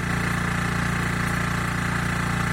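A generator runs steadily at a clean-water point in a district of Kandahar city, giving a loud, constant low engine drone with a fast regular pulsing throb, with no voices over it.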